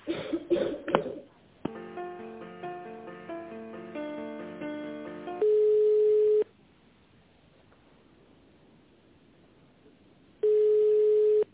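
Ringback tone on a phone line while a call to a company is being transferred: a few seconds of electronic melodic tones, then two steady, one-second tones about four seconds apart with quiet line hiss between.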